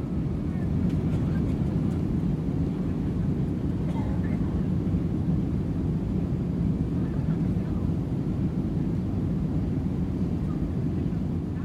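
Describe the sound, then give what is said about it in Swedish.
Dense, continuous low engine roar of a Pan Am airliner slowly taxiing out onto the runway. It holds at an even level throughout, with no breaks or clear changes in pitch. “Och Pan Am flyg 914 rullar sakta ut på startbanan.”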